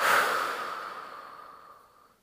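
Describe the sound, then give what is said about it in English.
Deep breathing, heard as one long, airy, hissing breath that starts strong and fades steadily over about two seconds, with no voices. “So let's take a deep breath in and out.”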